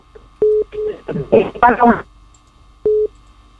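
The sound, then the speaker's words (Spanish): Short electronic telephone tones after a dropped phone call. A few brief beeps sit around a stretch of talk, with one more tone after the voice stops. “se nos fue la llamada ahí con la señora”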